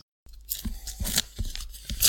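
A paper envelope is torn open in several rough, crackling rips, with short pauses between the tears and no talking.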